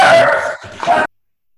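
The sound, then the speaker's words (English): A dog lets out one loud, strained, drawn-out cry, almost a howl, lasting about a second with a brief dip midway through, then cutting off sharply into silence. “I hope that was a dog and not a person dying. Yeah, I think that was a dog, for those who are alarmed.”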